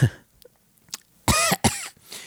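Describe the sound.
A few coughs and throat-clearing sounds come in quick succession, the last two louder and rougher, with no talk.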